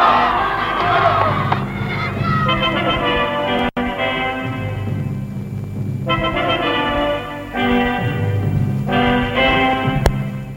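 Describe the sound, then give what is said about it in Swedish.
A crowd roars a fourfold hurrah for the winners of the first TV-pucken ice hockey tournament in 1959. Loud, chanted shouts come in several repeated bursts, each a sustained massed cry of many voices. “förena sig med mig i ett fyrfaldigt veve för segrarna i tävlingen om den första TV-pucken. De leve! Hipp hipp! Hurra! Hurra! Hurra! Hurra!”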